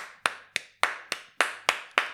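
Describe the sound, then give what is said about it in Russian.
One person claps hands seven times in a steady, moderate rhythm. Each clap is sharp and heard alone, with no voices. “Ну, если да, то я вам могу поаплодировать.”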